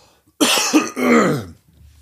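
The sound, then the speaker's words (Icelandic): Heavy, harsh coughing from a man, a short run of loud hacking bursts packed close together, followed by quiet breathing. “ég ætla að taka smá pásu án þess að þurfa að slökka mikrofónum og ég ætla að hósta duglega fyrir ykkur”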